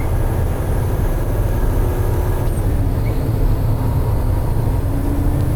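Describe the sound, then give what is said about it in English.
A snow plow truck at a salt plant moves forward in low gear with a continuous deep engine rumble. The drone stays loud and even throughout, with no distinct separate events. “Putting it in forward and low gear and moving forward.”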